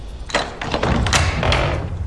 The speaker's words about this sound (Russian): Жарков поднялся на крыльцо и постучал.